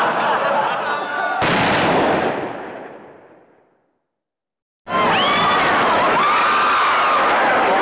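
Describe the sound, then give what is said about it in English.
A single loud gunshot sound effect portrays John Wilkes Booth shooting Lincoln at the theater. It cuts through crowd noise and fades into silence, and then shouting crowd noise bursts back in. “John Wilkes Booth fired a bullet into Lincoln's head.”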